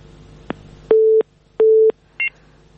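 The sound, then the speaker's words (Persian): Telephone line tones follow a caller's dropped call from Herat: a sharp click, then two steady, equal-length beeps and a shorter, higher double tone, loud and clear with no talking. “فکر کنم تماس شنوندی ما قطع شد.”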